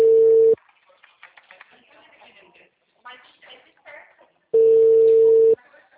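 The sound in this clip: Outgoing telephone call ringing, with two long, steady mid-pitched ring tones separated by a few seconds of faint talk and background noise.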